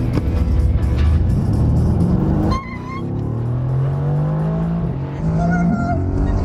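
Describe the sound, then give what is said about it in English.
A Formula One car doing a burnout: a loud, continuous engine roar with revving, its pitch dipping briefly and then climbing in sustained high tones. “Today, we'll go more than twice that fast on what's called a hot lap. Let's do a proper burnout.”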